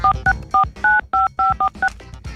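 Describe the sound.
A telephone number is dialed on a keypad: eight short two-note tones in a quick, uneven rhythm, with key-press clicks between them.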